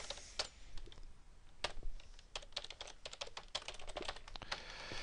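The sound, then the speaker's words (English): Rapid typing of code on a computer keyboard: many quick, crisp keystrokes in an uneven run with brief pauses, steady in loudness and with no talk. “we're just going to type this in line. Right, so rather than specify an existing class, let's go ahead and just type it in line.”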